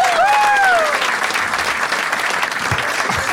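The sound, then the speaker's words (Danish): A studio audience at a talk show applauds a guest: loud, dense clapping that stays steady, with a few high whistles rising over it at the start. “Giv en kæmpe stor hånd til en hjemmegående husmor.”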